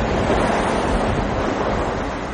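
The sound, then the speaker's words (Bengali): Storm wind and heavy pouring rain form a loud, dense, continuous roar that stays even throughout, with no talk or separate events. “হঠাৎ ঝড়ের মতো হাওয়া উঠে মুষলধারে বৃষ্টি পড়তে লাগল।”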